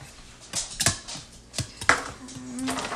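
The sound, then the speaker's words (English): A whisk clinks and scrapes against a bowl as ingredients are stirred: a few brief, irregular strokes with sharp metallic edges over a quiet background, no voices. “This might take just a couple of seconds to like whisk it around.”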